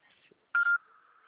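A voicemail recording tone: a single sharp, steady electronic beep lasting about a quarter second, then a fainter tone at a similar pitch lingering after it, with no voices.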